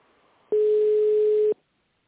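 A telephone ringback tone sounds while a caller waits for a company line to be answered: one steady, mid-pitched tone lasting about a second, loud and alone against a faint hiss, then silence.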